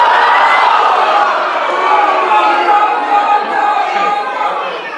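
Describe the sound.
Audience at a town hall meeting at Lewis Clark State College in Lewiston reacting: a dense, steady murmur of many overlapping voices, loud throughout and easing slightly toward the end.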